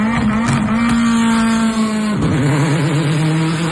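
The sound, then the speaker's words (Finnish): A race car engine revs at a Finnish championship rallycross track, a loud, steady, rasping drone that dips briefly near the middle, then settles lower and wavers. No voices are heard. “No sehän on sitten yksi hienoimpia ääniä ja tätä herkkua on luvassa Pesämäen rallycross-radalla lauantaina 22.8. kello 11 alkaen, kun rallycrossin SM-sarja saapuu Honkajoelle.”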